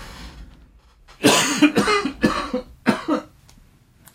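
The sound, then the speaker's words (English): A person coughing: a run of several harsh, loud bursts after a quiet lead-in, each sharp and breathy, spaced unevenly, with no talk around them. “I'm going to cough. Hold on.”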